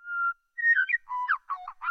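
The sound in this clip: Meadowlark song slowed to half speed, now lower and more voice-like: an opening steady whistled note, a pause, then a run of sliding, warbling whistles that grow choppier toward the end.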